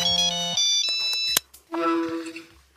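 A mobile phone rings with an incoming call, playing a bright electronic ringtone melody of stepped tones. The melody breaks off briefly, then resumes with another phrase.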